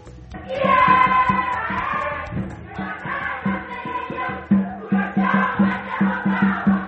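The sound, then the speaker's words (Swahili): Crowd of participants at the 12th Kenyan cultural festival in Atlanta, thousands gathered, their many voices chanting and calling together over a steady rhythmic pulse that grows more pronounced toward the end. “Na hizo ni sauti za baadhi ya washiriki hapa katika tamasha hili la 12 la utamaduni wa Kenya hapa Marekani, ambapo wamekusanyika kwa maelfu hapa jijini Atlanta.”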